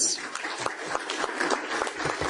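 Applause from an audience at an official gathering greets public enterprise chief executives. Dense, steady clapping fills the whole stretch at an even level without letting up.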